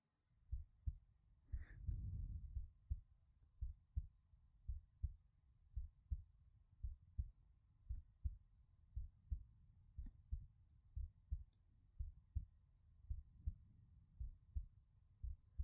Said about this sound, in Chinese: 听着姐姐的心跳，会不会很安心呢？